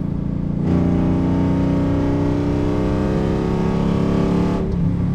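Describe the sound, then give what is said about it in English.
Car engine held at about 4,100 rpm under light throttle, a loud steady drone with closely stacked tones that stays nearly level, starting abruptly and cutting off just before the end. “Got a tiny little gap here. Give it a little throttle.”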